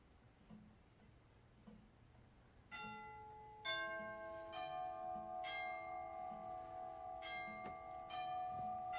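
A doorbell chimes with several clear, bell-like tones that ring on and overlap. They rise out of a faint, quiet start and hold steady to the end.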